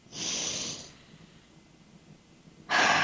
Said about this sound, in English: So take a really deep breath and then let it go. And do it again.